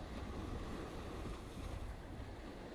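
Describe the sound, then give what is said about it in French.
Ocean waves wash continuously onto a sandy shore, a steady, full surf hiss with low rumbling churn and no distinct breaks or voices. “Imagine-toi allongé dans le sable au bord de l'eau, au bord de l'océan,”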